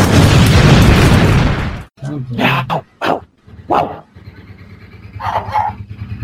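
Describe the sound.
A person imitates a dog, giving a few short, rough, loud barks after a stretch of loud, noisy sound. Voices talk around the barking.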